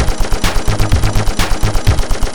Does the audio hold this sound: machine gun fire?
yes